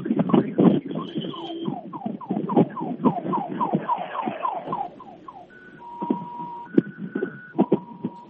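Electronic ambulance siren: a fast run of repeating chirps, followed by short, steady, high warbling tones that switch in pitch, loud and alone.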